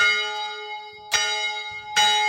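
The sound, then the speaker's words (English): An old fire station bell rung by a rope pull gives two bright strokes over a sustained, ringing metallic tone that lingers and decays between strikes. “a line of rope running up through the first and second floors to the roof, where, back in the day, it could be pulled to ring a bell. And yes, they kept the bell too.”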